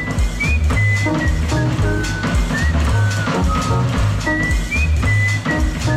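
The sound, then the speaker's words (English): Whistling from a person in a crowded bar: a few short, high, gliding whistled notes over loud, constant, rhythmic background sound. “I heard somebody whistle. I had to stop and listen.”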